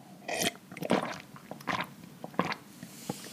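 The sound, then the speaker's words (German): Kidney tea drunk from a huge mug: a few quiet wet slurps and gulping swallows come in separate bursts, with soft noise between them. “Ich habe einen Nierentee in meiner riesigen Tasse und der wird jetzt getrunken.”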